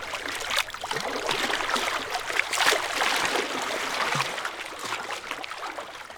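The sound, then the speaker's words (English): Water from Lake Michigan splashes against the rocks at Promontory Point on the Chicago lakefront. It makes a continuous wash of lapping and gurgling water with soft, irregular splashes and stays moderately loud throughout. “So it's no surprise that the sound you're hearing right now is one of our most popular requests, is the soothing sound of Lake Michigan.”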